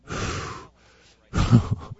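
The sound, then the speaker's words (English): A group takes deep cleansing breaths together, two long audible exhales like heavy sighs separated by a short pause, the second breath louder and more forceful than the first. “let's do the fellowship of deep cleansing breaths.”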